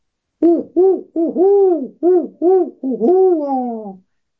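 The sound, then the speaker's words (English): A barred owl hoots in the woods in a loud rhythmic series of deep hoots, ending in a long drawn-out hoot that falls at the end. No other sound is heard. “and a barred owl responded from the woods, welcoming me to liminal space”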